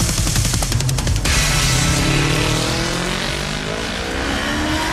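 A racing motorcycle sets off at the start of a race with a loud, dense engine roar. The revving buzz fills the whole clip without a break, and no voices are heard.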